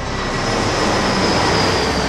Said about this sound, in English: he hears the sounds of a familiar jet